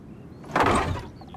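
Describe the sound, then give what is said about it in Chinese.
A courtyard gate being opened makes a single rushing, scraping swell that lasts about half a second, then dies away into quiet. “这一日，家仆三宝打开院门，却发现门前的赈灾粮都不见了。”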